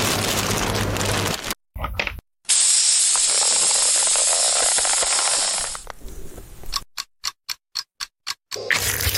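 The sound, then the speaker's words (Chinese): A vacuum sealer draws air from a bag of meat rubbed with garlic powder, coriander seed powder and smoked paprika, giving a loud steady hiss for several seconds before it tapers into a series of short clicking pulses. “然后这时候我们需要抽真空。”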